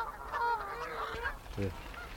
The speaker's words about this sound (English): Yeah, they're covered in Canada geese.